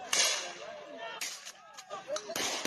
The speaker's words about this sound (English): I wanted to play just that clip again of the street shooting right there, because it's freaking nuts.